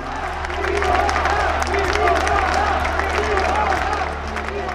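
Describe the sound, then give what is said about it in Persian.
Tennis crowd in a stadium cheering for Simona Halep after Ostapenko loses a set on an error: a loud, continuous roar of cheers and applause, with a voice talking over it. “هواداری سیمون هالب ورزشگاه رو گذاشتن رو سرشون.”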